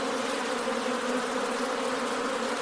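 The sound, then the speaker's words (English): A swarm of bees buzzing while being moved into a new hive: a loud, dense, continuous drone with a steady hum that stays even throughout, with no talking. “Amazing sound, isn't it? I know. All right, bees, it's all okay.”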